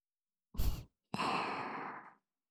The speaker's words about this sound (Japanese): 私の吐息いっぱい感じて